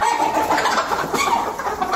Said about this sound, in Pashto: تازه یې د بیکاری له وجې د کورنۍ چرګانو فارم جوړ کړي